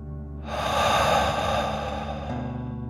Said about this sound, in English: Deep breath in and out.